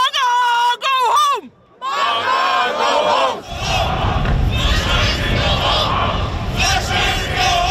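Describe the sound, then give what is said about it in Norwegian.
Around 150 demonstrators in Trondheim protest passengers of the cruise ship Silver Dawn, with loud shouted cries and chants at the start. Massed crowd noise and overlapping yelling then continue without a break. “Det her lyd fra Trondheim I går, for der møtte rundt 150 demonstranter opp for å protestere mot en gruppe av passasjerer på cruiseskipet Silver Dawn.”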